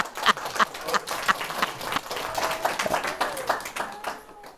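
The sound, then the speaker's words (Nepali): An audience claps after a poem is recited at a talk. The claps are loud and uneven, with voices mixed in. “सबैले ताली ठोक्यो”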